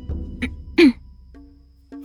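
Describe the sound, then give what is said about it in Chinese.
A woman clears her throat with one short, voiced rasp that drops in pitch, just after a soft breathy catch. Quiet, faint hums follow, with no talk. “滕玉意再次清了清嗓子”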